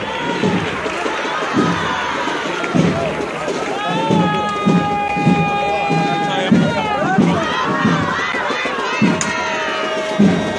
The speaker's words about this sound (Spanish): Los aplausos, los gritos.